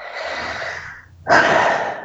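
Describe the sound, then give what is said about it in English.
A deep breath taken during a guided tapping meditation: a long, airy rush of breath, a short pause, then a second, louder and fuller breath. “Tapping the temples and breathe.”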